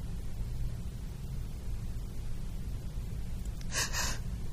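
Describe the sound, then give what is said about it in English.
A person demonstrates breathing with a quick double breath: two short, airy exhalation bursts in close succession near the end, following a stretch of quiet hiss. “This is a double breath. That was a ragged breath.”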